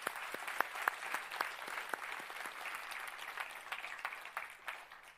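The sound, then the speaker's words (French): A church audience applauds its production team with soft, scattered clapping. Sharp individual claps stand out early, then blend into a steady patter. “j'aimerais juste qu'on puisse euh, euh, féliciter, acclamer l'équipe production qui se bat pour monter en qualité. Merci aux équipes.”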